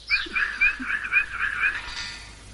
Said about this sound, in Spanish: Son canarios, ¿verdad?